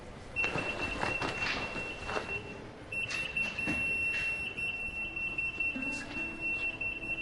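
An anti-theft alarm set off by tagged jackets gives a faint, high, steady electronic tone. It breaks off once briefly and then resumes over soft rustling and shuffling.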